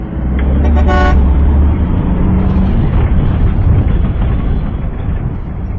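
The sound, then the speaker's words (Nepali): A vehicle horn honks loudly near the start as the vehicle arrives. A steady, heavy engine rumble runs beneath it and continues after the horn stops. “लो गाडी नै आइपुग्यो”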